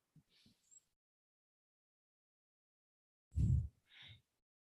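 A deep breath drawn in during a guided breathing moment, heard as a loud breathy burst near the end after a few faint, brief breath noises and a long silence.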